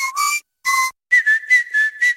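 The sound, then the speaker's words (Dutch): A person whistles a short tune of several clear, high notes, a few quick phrases separated by brief pauses, with no other sounds. “Niet alleen de vogels fluiten in april, ook Toyota-rijders.”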